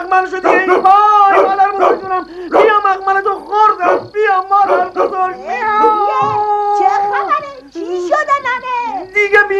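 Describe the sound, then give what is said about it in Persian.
A human voice imitating a dog barking, loud and continuous, with many yapping, yelping barks and whimpers in quick, uneven bursts. “یهو هاپو کومار بیدار میشه، نگاهی به این طرف و اون طرف میکنه و شروع میکنه به هاپ هاپ کردن”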